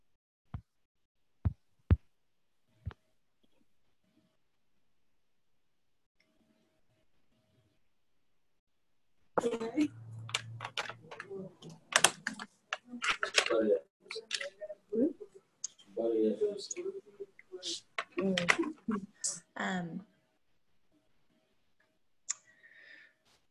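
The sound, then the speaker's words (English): Typing on a computer keyboard: a few isolated clicks, a pause, then a long burst of rapid, uneven key clatter before it stops and one last click sounds. “Babe, let me type my contribution.”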